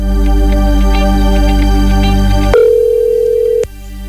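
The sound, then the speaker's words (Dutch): A ringback tone sounds on an outgoing call to a phone-in quiz contestant: one steady mid-pitched tone lasting about a second, which follows a buzzy, humming bed and then cuts off abruptly. “We gaan bellen met hopelijk de laatste kandidaat.”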